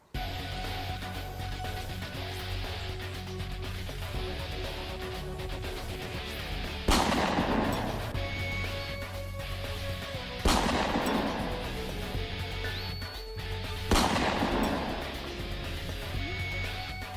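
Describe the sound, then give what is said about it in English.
Three loud gunshots ring out a few seconds apart. Each sharp crack is followed by a decaying, booming tail over a steady low background hum, and no voices are heard. “What the blinking hell was that? I think someone's shooting at us, boss.”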